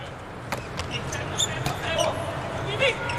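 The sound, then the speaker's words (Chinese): Sharp hits of a volleyball serve during a match against Italy's side, with a few crisp impacts standing out over steady crowd hubbub and commentary. “换主攻了，乔瓦尼尼上来发球，保证后排这个防守。”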